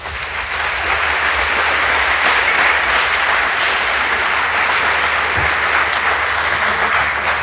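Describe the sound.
Audience applause welcoming two speakers to a hardware hacking talk: sustained, dense clapping that rises quickly and holds at a steady, loud level for about seven seconds.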